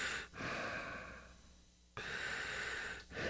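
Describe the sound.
A voice imitates respirator breathing with two long, hissing, rasping breaths, each a drawn-out airy rush with a brief catch near its end, separated by a quiet pause.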